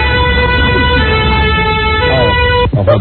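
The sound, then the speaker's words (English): A loud, continuous police car siren holds strong, steady tones throughout, with a brief sharp disturbance near the end. “That's the siren. Was he sitting on top of a police car? This is incredible sirens.”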